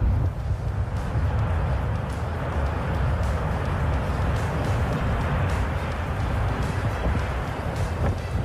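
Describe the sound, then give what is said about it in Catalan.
Cumbre Vieja volcano erupting on La Palma: a continuous deep, noisy roar, heavy in the low end and steady in level, with no separate bursts standing out. “I des d'Andorra cap a La Palma, perquè el volcà continua en erupció i la lava avança a 700 metres per hora. Així sona avui el Cumbre Vieja.”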